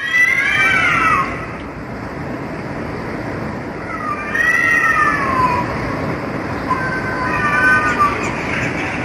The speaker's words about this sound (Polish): No tak, ten musical to pewnie koty.